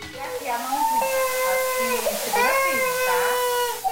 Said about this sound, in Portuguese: Sim, teve chorinho